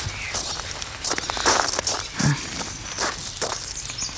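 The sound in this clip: Footsteps of several people walking around to the back of a rundown shack, irregular scuffing and crunching steps at moderate loudness.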